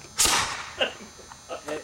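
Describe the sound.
A hairspray-fuelled cannon fires one loud, sharp crack that quickly decays, followed by a few faint, softer sounds.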